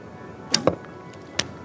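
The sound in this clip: An arrow is shot from a bow in archery, giving three short, sharp snaps over a faint steady background: two close together, then a third about a second later.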